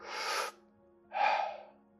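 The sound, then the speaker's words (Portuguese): A person breathes in and out during a breathing exercise, two soft, airy breaths separated by a short pause, each heard alone and fairly quiet. “vou apenas dizer-te para inspirares e expirares. Ou inspira e deixa ir. Ou dentro e fora. Ou farei o som.”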